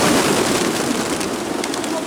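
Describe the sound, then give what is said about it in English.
A flock of pigeons flaps away in alarm outside a train station. Many wingbeats merge into a loud, continuous fluttering rush. “being confronted with a flock of pigeons flapping away in shock”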